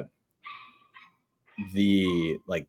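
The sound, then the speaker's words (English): A dog barks angrily outside, heard from a ninth-floor apartment: a few sharp, high yips and barks, then a longer, louder bark and a final short one. “you hear that dog barking outside? Isn't that crazy? Seems angry.”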